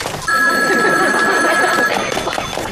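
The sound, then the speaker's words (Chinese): A telephone bell rings in one continuous, high, steady trill lasting well over a second before stopping, set over a busy background of noise. “电话铃7:59准时响了”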